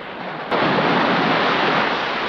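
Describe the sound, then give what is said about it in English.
A huge wave crashes down on the African Queen as the boat keels over onto its side. A steady wash of rushing water surges suddenly louder after the first half second, then holds as a dense, roaring churn to the end. “A huge wave crashes down on Rose and Allnut, and as the water clears, Rose has gone.”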